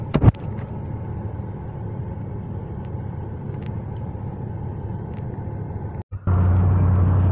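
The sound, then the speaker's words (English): Car driving through the streets of Houston: a steady low road rumble with a few faint clicks, a brief dropout near the end, then a louder, constant hum. “I'm out here riding in the streets of Houston.”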